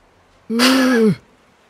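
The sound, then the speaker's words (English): A single short groan voiced by a storyteller imitating an aching old grandfather, a strained, tonal sound lasting under a second that drops in pitch as it ends. “And you guys hear a groan from the opposite end of the room.”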